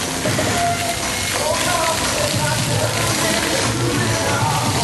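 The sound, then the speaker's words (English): Water spraying and splashing at a kids' splash pad area, a steady, continuous hiss of running and falling water with no pauses. “here is the kids' splash pad area.”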